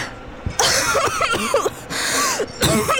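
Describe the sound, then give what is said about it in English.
A woman heaves in a breath and chokes, making a few rough, raspy gasps and coughing bursts separated by short pauses. “Samantha Stone heaves in a breath, choking.”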